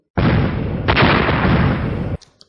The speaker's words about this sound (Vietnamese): Một loạt tiếng nổ vang lên, điện quang và huyết khí liền đang xen vào nhau.